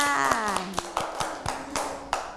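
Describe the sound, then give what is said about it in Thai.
Children clap in a classroom, giving uneven rounds of soft, quick claps at a moderate level, while a voice sings or calls out briefly near the start. “ปรบมือให้กับน้องดินค่ะ”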